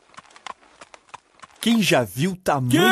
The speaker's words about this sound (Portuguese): Silêncio! Tem alguém vindo aí! Primeiro, veio um fazendeiro com uma carroça carregada de sementes que levava para a moagem na usina.